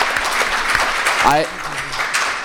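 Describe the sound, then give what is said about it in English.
Audience giving a round of applause at a talk, continuous dense clapping with a brief voice cutting in partway through. “I think we all got to give her a round of applause.”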